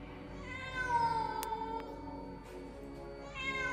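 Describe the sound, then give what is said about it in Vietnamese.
A black cat on a windowsill meows at night, a faint, long, drawn-out wavering cry followed by a pause and the start of another meow. “Bỗng có tiếng mèo kêu lên văng vẳng trong đêm tối.”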